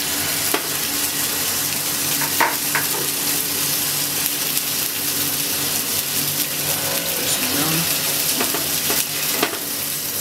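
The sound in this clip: Bacon for burgers frying in a pan, two strips at a time. A dense, steady sizzle with scattered crackles and pops runs throughout, and no one speaks.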